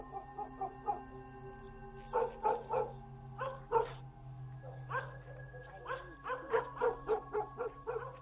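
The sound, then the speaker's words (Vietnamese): Two dogs bark loudly at night in quick clustered bursts of sharp yaps and barks, separated by short pauses over a steady low hum, quiet overall. “Bỗng nhìn hai con chó, nó lại lên cơn, sủa lên inh ỏi.”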